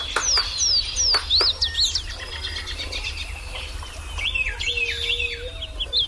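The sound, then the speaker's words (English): Spring birdsong from birds newly returned and setting up territories: a chorus of high chirps and quick slurred whistles, with a lower steady tonal call in the middle and more bright song near the end. “the serenade of birds early in the spring when birds are first returning and begin setting up territories is as good or better than any place I've heard anywhere in the country.”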